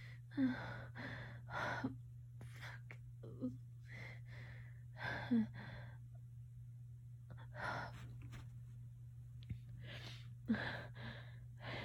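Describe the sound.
A person gasps for breath after holding it, with several sharp, breathy intakes and exhales at uneven intervals over a low, steady hum.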